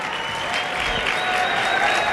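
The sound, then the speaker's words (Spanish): An audience applauds a Brazilian popular music string quartet with steady, dense clapping that stays fairly loud and even throughout, with no voices standing out. “Un aplauso para ellos. Y para ellas.”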